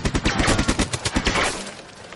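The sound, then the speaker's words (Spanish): Rapid gunfire in a World War II trench battle scene as a soldier shoots a Soviet attacker: many loud, sharp shots in a fast burst that thins and tails off toward the end. “El ruso entra en la trinchera y clava la bayoneta a un estonio. Un compañero dispara al soviético.”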